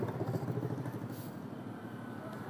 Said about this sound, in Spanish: Miren, otro motociclista.